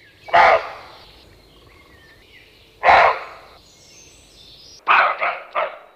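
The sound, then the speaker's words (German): A roe deer buck barks close to a tent: a single harsh, hoarse bark, a second after a pause, then a quick run of three, each loud against a quiet background. “Das ist ein Rehbock,”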